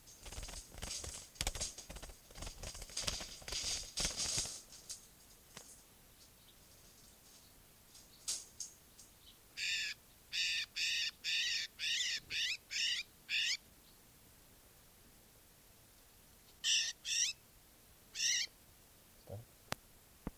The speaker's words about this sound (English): This is bird 649.